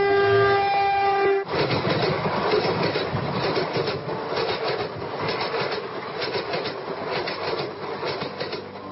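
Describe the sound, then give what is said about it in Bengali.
A train at a small station sounds its horn for about a second, then a steady rolling rumble and rhythmic clickety-clack of the cars on the rails carries on at an even level. “স্টেশনে train থামিতেই hat coat পরা সুরনাথ বাবু নামিয়া পড়িলেন। স্টেশনটি ছোট, তাহার সংলগ্ন জনপথটিও বিস্তীর্ণ নয়। ট্রেন দু মিনিট থামিয়া চলিয়া গেল।”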